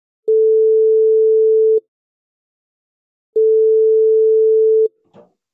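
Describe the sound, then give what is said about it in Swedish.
Telephone ringing tone on an outgoing call: two long, steady, mid-pitched beeps of equal length with a silent pause between them, followed by a faint click at the end. “Vi slår en pling till Titus helt enkelt.”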